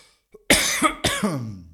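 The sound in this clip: Two harsh coughs from a person, the second following about half a second after the first, each breaking into a throaty, voiced tail. They are loud and heard alone.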